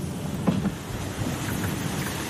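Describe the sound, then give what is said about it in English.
Heavy pouring rain heard from a car driving around on a nasty day, a steady, dense hiss that stays even throughout with no voices. “We're driving around today, and you can see it's pouring, raining. It's a nasty day”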